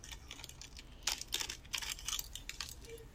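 Crinkling of a candy wrapper being unwrapped, with crisp crackles and a few louder rustling bursts as the candy is handled and eaten, heard alone as a close ASMR trigger.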